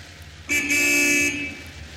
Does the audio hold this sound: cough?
no